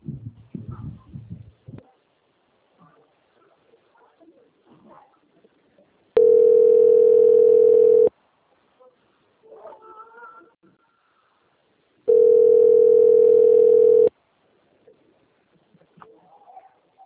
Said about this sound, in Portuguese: Agradeço sua atenção e peço que aguarde linha, que vou transferir o contato para o controle de qualidade, que dará continuidade à contratação.